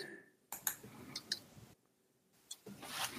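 Faint computer keyboard typing during an online call: a few scattered clicks and taps over low background hiss.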